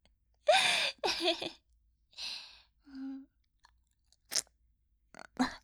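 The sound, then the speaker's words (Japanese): Close mouth sounds of biting at empty air, captured on a binaural microphone: a few snapping, crunchy bites and breathy gasps with one short hummed tone, separated by silence. “空気を噛んでしまった”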